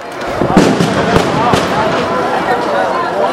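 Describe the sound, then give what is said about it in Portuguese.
Bombs and rubber-bullet gunshots at a street protest sound as several sharp, loud bangs and pops over a dense, continuous roar of crowd noise, with people talking throughout. “Mais bomba, tiro de bala de borracha.”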